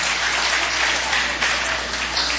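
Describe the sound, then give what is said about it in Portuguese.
An audience claps its hands during a church worship service, a full, continuous patter of many hands that stays loud and steady, with small swells but no pause. “Essas palmas podem ser melhor para Jesus, não pode não?”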